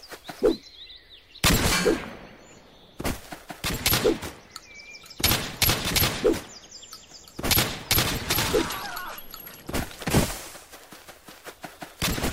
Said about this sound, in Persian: این هم تیر همین اسلحه پیستول بود که برش داشتم.